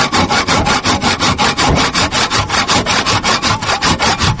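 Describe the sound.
Hand sawing of wood branches gathered for stove fuel, with many loud, steady back-and-forth rasping strokes in a quick, even rhythm and no voices.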